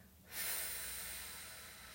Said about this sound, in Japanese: もう一度吸って、ゆっくりたっぷり深く。はい、吐きます。